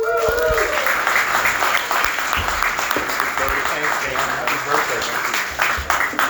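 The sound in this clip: An audience at a recovery meeting applauds to welcome the headliner speaker, a steady, dense clapping that runs the whole length after a brief voice at the start.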